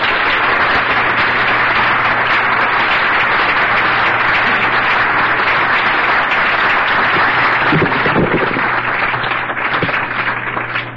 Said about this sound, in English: Please join me in giving Paul a big Washington welcome.